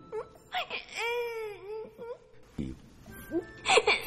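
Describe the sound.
A small novice boy at a Buddhist temple cries, a long wavering wail broken by short gasps, then rising into a higher whimpering burst near the end.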